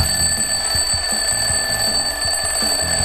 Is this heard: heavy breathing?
no